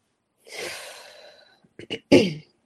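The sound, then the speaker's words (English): A deep breath taken during a guided heart-centering meditation: one long, airy breath that tapers off, followed by a few short breathy bursts. “So I'm just going to take a couple deep breaths with you guys. Hopefully you'll do it with me, and then I'll dive right in.”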